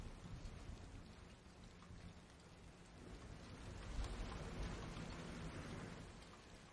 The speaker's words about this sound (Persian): توفن تموم شد؟ ما توی دل توفانیم.